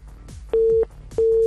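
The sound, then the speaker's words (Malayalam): Busy tone after a phone call is cut off during a call-in game: two steady, mid-pitched beeps of equal length with a short gap between them, standing out clearly over faint low background noise. “എന്തായാലും നൈസായിട്ട് കട്ടായി പോയിട്ടുണ്ട്, കുഴപ്പമില്ല, വീണ്ടും വിളിക്കുക.”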